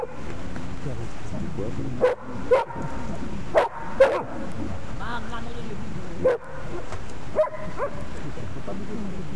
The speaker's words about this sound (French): Les chiens.